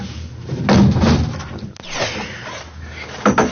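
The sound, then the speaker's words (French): A window being closed: a rumbling slide, a sharp click as it shuts, and a final knock. “Je vais fermer la fenêtre.”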